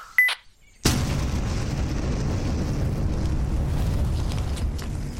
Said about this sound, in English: Hey, got a grenade.